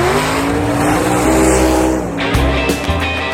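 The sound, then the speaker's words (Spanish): A car engine, from a car like the one in which a young racing-loving actor died, drones loudly and steadily with layered low harmonic tones. The engine note shifts briefly near the end. “James Dean murió en un automóvil igual a este cuando tenía apenas 24 años.”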